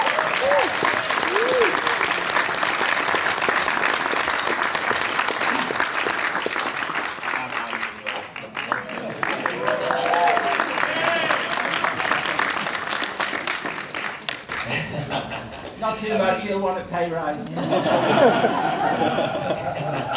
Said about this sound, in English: can we just really give him a round of applause?